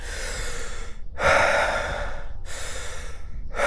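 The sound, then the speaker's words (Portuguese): Deep breathing through a congested chest after a cold with sore throat, cough and runny nose: a few long, rough, noisy breaths in and out, loud and continuous, with short gaps between them. “Deixa eu, deixa eu tentar respirar, vamos ver.”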